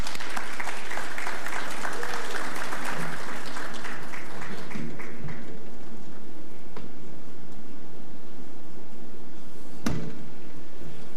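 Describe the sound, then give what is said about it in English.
Audience applause at an awards ceremony, a dense burst of clapping that holds strongly for about five seconds, then thins out and fades to a quieter background. “Please put your hands together for Chief Judge Andrew Millington.”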